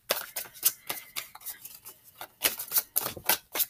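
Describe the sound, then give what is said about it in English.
Tarot cards are shuffled by hand, making many crisp, sharp snaps and flutters in irregular bursts. The snaps are moderately loud and come quickly one after another. “And again, I like to shuffle live.”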